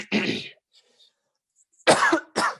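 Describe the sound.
Coughing and throat clearing from someone who keeps choking up in the throat, heard as three short, harsh bursts: one at the start, then two close together after a pause, with no talking.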